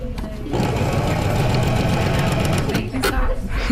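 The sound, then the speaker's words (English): A sewing machine stitches fabric in reverse with the reverse button held down while the fabric is steered left and right. Its motor gives a loud, steady, rapid mechanical whir that runs without a break and dips briefly near the end. “So to reverse, you're going to push down the reverse button. The machine will move the fabric itself. So all you're doing is just steering left to right.”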